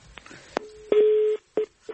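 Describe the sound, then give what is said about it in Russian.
An incoming phone call signal on a telephone line: a click, then a steady mid-pitched tone of about half a second, followed by a shorter beep and a faint final blip. “Еще звонок.”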